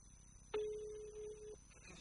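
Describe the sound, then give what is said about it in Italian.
A single steady ringback tone, a mid-pitched electronic purr lasting about one second, sounds as a phone call is placed to a patient about a medical visit. Faint background noise surrounds it. “Io sto già chiamando la signora Laura. Vediamo.”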